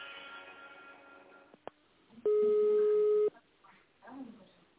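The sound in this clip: A single sustained telephone keypad tone sounds for about a second while dialing in an automated phone menu. It is steady and clear, with brief voice-like sounds before and after it.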